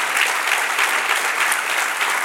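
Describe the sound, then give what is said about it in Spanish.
A church audience applauds, a dense, steady clatter of many hands clapping that holds at an even, fairly loud level throughout. “Démelo un aplauso al Señor.”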